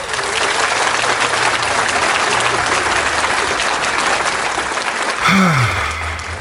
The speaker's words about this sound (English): Give it up for Greg DeGoon, people.